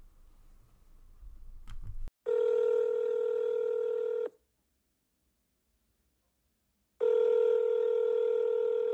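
Telephone ringing tone as a call is placed: a short burst of rustling noise and clicks, then two steady two-second tones separated by silence.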